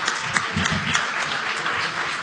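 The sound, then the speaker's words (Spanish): Applause from a crowd: dense, steady clapping that stays even and fairly loud from start to finish. “Ahí venía el aplauso porque estuvo bueno.”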